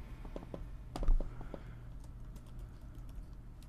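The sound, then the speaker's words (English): Keys clatter on a computer keyboard in quick, irregular bursts of light clicks, fairly quiet over a low steady hum. “if Bullfighter was seeing me type”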